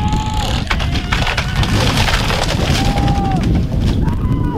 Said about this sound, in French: Derrière, hein, d'ailleurs, vous entendez le craquement des planches de bois défoncées par l'engin de chantier